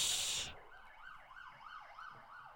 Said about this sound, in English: That was a siren going past